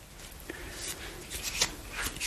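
A deck of cards is shuffled for a three-card reading, giving faint, soft rubbing and scraping card sounds in irregular bursts.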